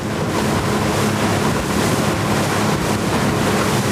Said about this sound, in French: Dans le bruit du moteur, le bateau rentre lentement vers Libreville.